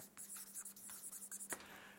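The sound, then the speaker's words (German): Pen scratching as notes are written down, a faint, continuous run of short strokes with an uneven rhythm. “Ich schreibe mal so, Koran und die früheren Bücher.”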